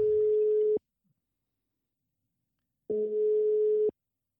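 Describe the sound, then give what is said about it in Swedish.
Telephone ringing tone on a call to a man in Kalmar, Sweden: two steady, mid-pitched buzzing tones, each about a second long, separated by a long silent gap, with no voices. “vi ska börja med att slå en signal åt, åt Simon och se om vi får uh, få tag på honom där borta i Kalmar”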